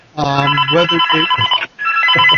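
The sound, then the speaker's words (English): A mobile phone rings with a loud electronic melodic ringtone of bright stepped tones, in two phrases split by a brief gap, sounding on its own. “Someone's phone's ringing. It's not mine. Sorry, that was mine.”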